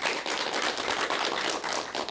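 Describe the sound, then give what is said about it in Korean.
Audience applause during a question-and-answer session, a moderately quiet, steady patter of many hands clapping with slight swells and dips in level throughout. “여러분 박수 부탁드릴게요.”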